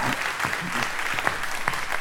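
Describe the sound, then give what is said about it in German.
Applause from a crowd fills the whole two seconds, a dense, even wash of many hands clapping with no clear breaks and no clear pauses. “Ist immer geil, wenn man Tosenapplaus bekommt und dann im Stillen abläuft.”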